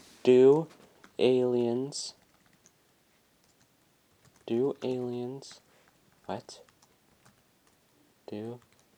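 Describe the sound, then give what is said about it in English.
Computer keyboard keys clatter as someone types a web search, with light clicks scattered between stretches of a person talking. “If we go ahead and type on Google, hold on,”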